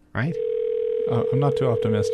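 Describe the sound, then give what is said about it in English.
A steady telephone tone sounds on a call and holds at an even pitch the whole time, while people talk over it. “And this is the sound of Bernie's phone ringing and hopefully picking up”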